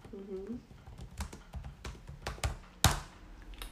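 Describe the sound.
Typing on a computer keyboard while writing a note, scattered quiet key taps at an uneven pace with one sharper, louder tap near the end; brief speech at the start.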